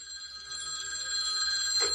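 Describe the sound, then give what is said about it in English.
A telephone bell ringing with a bright, continuous trill that holds throughout and grows slightly louder toward the end. “George puts some music on, and then the phone rings, and it's Annie.”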